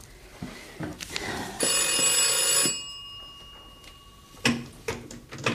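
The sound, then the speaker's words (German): A telephone bell rings in one sustained, bright burst of about a second, with scattered knocks and clicks before and after it. “Telefon.”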